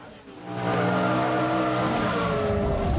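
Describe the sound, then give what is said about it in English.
A racing car bursts out of a truck, its engine swelling from a brief quieter start into a loud, steady, high roar that holds to the end. “The racing car bursts out of the truck, showering debris.”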